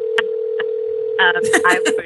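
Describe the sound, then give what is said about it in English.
A phone sounding with a steady, unbroken mid-pitched electronic tone held for about two seconds while people talk over it. “That's just Alice's phone ringing. Nothing to worry about.”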